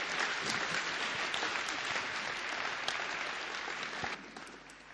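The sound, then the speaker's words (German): An audience applauds at an evening gathering with dense, steady clapping that stays fairly faint throughout and thins out toward the end. “And ein Applaus, Gary.”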